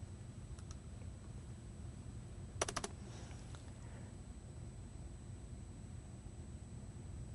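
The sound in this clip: A short burst of keystrokes on a computer keyboard, a few quick clicks heard once, faint and alone over a steady low hiss.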